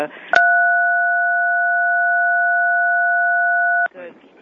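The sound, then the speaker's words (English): A steady two-pitch telephone tone from someone tampering with the phone line during a members' phone-in meeting. It holds at an even, loud level for about three and a half seconds, with brief voices just before and after. “Whoever's playing with the phone, would y'all be adult, please? Yeah, would the members please stop that?”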